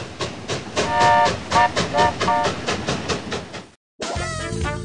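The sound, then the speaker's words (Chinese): A train arriving at a station: loud rhythmic clickety-clack of wheels with a ringing metallic squeal over the beat. The clatter cuts off abruptly after about four seconds, and a short gap follows. “本次列车即将到达终点站——娱乐情报站”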